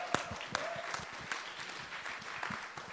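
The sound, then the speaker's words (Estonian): Faint applause from a church audience welcoming a preacher to speak, with a few sharper individual claps standing out from a soft, sparse patter of hands. “Ja annab talle ühe aplausi.”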